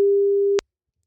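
Telephone line tone while calling someone: a single steady, mid-pitched beep lasting just over half a second, then cut off abruptly into silence.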